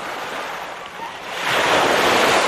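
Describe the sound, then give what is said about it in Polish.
Sea waves wash onto the shore with a soft, rushing hiss and some wind noise. The surf is faint at first, then swells into a louder, fuller wash over the second half. “A dziś będziemy się budzić z szumem morza.”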